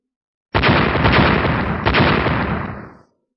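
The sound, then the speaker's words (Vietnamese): A loud explosion blows out a glass floor high on a skyscraper. It erupts abruptly into a dense roaring blast, a second burst hits partway through, and the roar then fades out over about two and a half seconds. “Xa xa đột nhiên truyền đến một tiếng nổ lớn”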